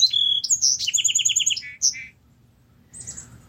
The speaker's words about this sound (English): Such an honor to be joined this morning with the Song Sparrow.